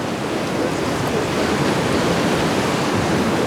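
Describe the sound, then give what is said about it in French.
Sea waves break in a steady, dense roar of surf as a storm front develops near Collioure. The wash is loud and continuous, with no pauses. “Et la mer commence à libérer ses vagues.”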